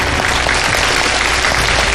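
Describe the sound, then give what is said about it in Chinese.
Audience applause honoring a revered elder guest: dense, steady clapping from a large crowd at a constant, fairly loud level, with no voices standing out. “我们把掌声和敬意送给林老”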